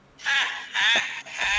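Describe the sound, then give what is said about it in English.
A phone's text message alert sounds in three loud, harsh, buzzy bursts, each roughly half a second long, with a caw-like rasp and almost no gap between them. “I hear your phone”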